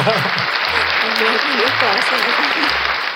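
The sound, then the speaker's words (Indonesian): Steady applause rolls on for the whole stretch, a dense even wash of clapping from a small group celebrating news, with voices talking and laughing over it. “Yes, applause dulu dong.”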